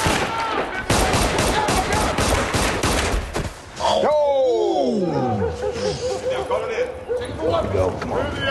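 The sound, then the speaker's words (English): Gunfire in a TV drama scene where police shoot a fleeing suspect: dense, rapid bursts of shots mixed with loud voices, followed by a short gap and then more shouting and noise. “Earn and Paperboy are stopped by police and witness the shooting of a fleeing suspect”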